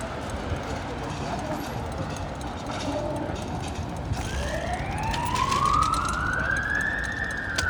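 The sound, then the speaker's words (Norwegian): Emergency vehicle siren in the city of Oslo: a wail rising steadily in pitch from midway through, growing louder over a constant rumble of street noise. “Lyden av Oslo. Sirene til å være til.”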